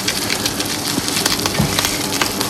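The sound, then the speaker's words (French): Meat searing in its own fat on a hot plancha gives a dense, steady sizzle with continuous crackling and a few soft low pops throughout. “Et après, on va légèrement le brûler sur sa graisse.”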